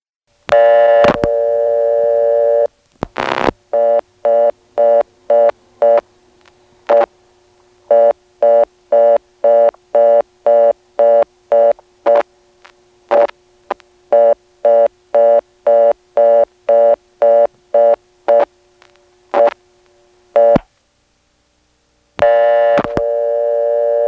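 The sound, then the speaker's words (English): Telephone signals from a local exchange in Belhaven, North Carolina: a loud steady tone, then a long run of evenly spaced tone bursts as a broken reorder on a blocked level, and later an irregular busy tone that resumes after a short silence. “First, that famous broken reorder on a blocked level, then a busy.”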